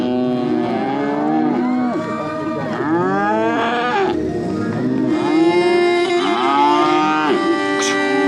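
Cattle and calves mooing at a livestock competition where calves are shown: many loud, overlapping bellowing calls follow one another throughout, some deep and sustained, others higher and bending in pitch.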